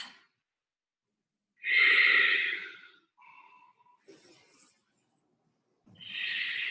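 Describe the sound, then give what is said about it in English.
Steady, even breathing during a yoga session: a long, soft, airy breath, then a few fainter breathy sounds and a pause, then another breath starting. No one speaks. “More steady breath. Just like even flow in and out rather than like a forceful like.”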